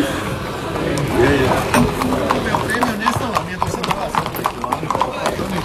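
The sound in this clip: Horse hooves clip-clop among many horses gathered in a group at a traditional horse event. Many irregular, sharp hoof strikes continue throughout beneath constant talk.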